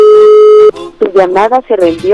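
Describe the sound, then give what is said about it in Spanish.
An outgoing telephone call rings, a single short steady tone that stops abruptly, followed at once by a voice speaking. “Vamos a ver si tenemos oportunidad que nos reciban la llamada.”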